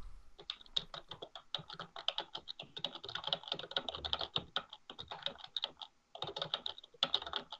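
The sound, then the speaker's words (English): Typing on a computer keyboard: rapid, uneven clicking keystrokes in a steady stream, with a brief pause before the tapping resumes, faint and with no talking. “He's typing up his next novel.”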